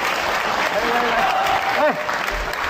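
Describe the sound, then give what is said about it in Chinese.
Audience applause at a stage comedy show as a performer is called up. Dense, steady clapping runs throughout at an even level, with voices audible over it. “掌声鼓励。掌声啦！掌声鼓励！”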